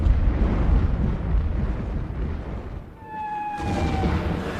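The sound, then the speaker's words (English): Artillery bombardment in a war drama, a heavy rolling rumble of explosions, then a brief lull with a thin, high whistling tone before another broad blast of noise. “This is the final bombardment, Ellis.”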